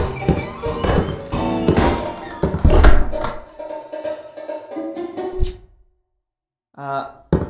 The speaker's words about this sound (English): Let's just close that door.